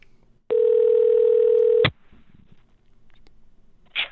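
The ringback tone of an outgoing telephone call sounds once as a steady, buzzing tone lasting just over a second and ending in a click. Faint line hiss and another soft click follow.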